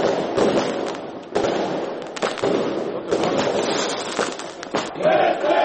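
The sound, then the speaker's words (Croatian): Fireworks crackle and pop amid a cheering, chanting crowd and applause at SDA party headquarters during an election victory celebration. Dense, loud, continuous bursts of sharp bangs run throughout. “Najveselije i najuzbudljivije je bilo u centrali Stranke demokratske akcije, gdje su objavu pobjede Šefika Džaferovića za bošnjačkog člana predsjedništva pratili aplauze, skandiranje i vatromet.”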